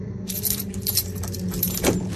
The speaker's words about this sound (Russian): Сухой щелчок возвестил о том, что ключ подошел. Мужчина напряг пальцы и провернул ключ на полоборота.